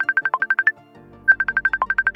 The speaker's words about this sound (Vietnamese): Liền sau đó chị T nhận được cuộc gọi video qua ứng dụng Messenger của Facebook